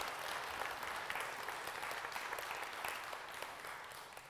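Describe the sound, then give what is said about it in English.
Steady applause from a worship service audience honoring a performer after his original sonata, a dense, even clapping that stays fairly faint and eases off slightly toward the end. “Another round of applause for Randall Johnson.”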